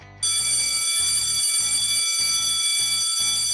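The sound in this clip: A school bell rings for class with a loud, shrill, continuous electric ringing that starts abruptly and holds steady throughout, with a faint low pulsing beneath it and no voices.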